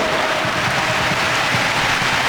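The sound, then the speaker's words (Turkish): Norway's football supporters applaud their team's attacking pressure during a match. A dense, unbroken wash of clapping and crowd noise holds at a steady loud level. “Norveç'in baskısı alkış aldı taraftarından.”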